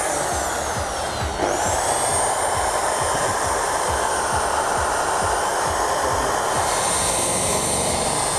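A polishing machine buffs back and forth in one direction at a set speed, its pad tilted at 30 degrees. It makes a loud, steady whirring drone with a high whine that holds throughout.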